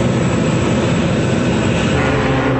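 Airplane in flight, a loud steady engine roar that stays even and unbroken from start to finish, with no voices.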